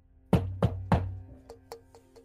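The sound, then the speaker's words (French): Knocking on a door: three firm, evenly spaced knocks with a low resonant thud, then a few fainter, lighter taps. “vous entendez toquer à votre porte.”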